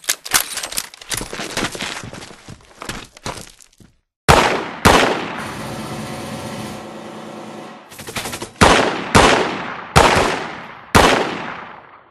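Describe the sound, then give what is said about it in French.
Gunfire during a shootout in an audio drama: a rapid run of many sharp shots, a brief silence, then heavy single blasts with a long ringing tail, followed by several more loud, spaced shots. “On doit arrêter de tirer!”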